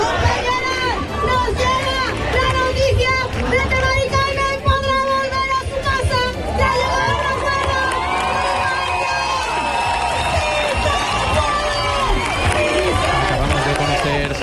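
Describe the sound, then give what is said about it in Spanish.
A crowd of tenant protesters in Seville chants a slogan, celebrating a woman's housing agreement with an investment fund. Many voices sing together loudly and continuously over dense crowd noise, with cheering and shouting throughout. “todo mientras el público canta "No nos vamos, nos quedamos". Público aquí en Sevilla que también ha reaccionado con júbilo a la noticia del acuerdo de Mari Carmen con el fondo Urbagestión para poder volver a su casa. Lo escuchamos.”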